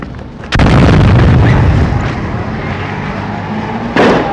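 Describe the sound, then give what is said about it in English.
A grenade explosion during jihadi violence in a downtown area: a sudden, loud blast gives way to a long, roaring rumble that slowly fades, then a second sharp burst near the end. “There's a grenade! Grenade! Get back!”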